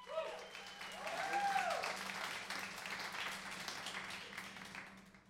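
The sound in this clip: Audience applause for a live radio show's house band: steady, even clapping continues throughout at a faint level over a low, constant hum.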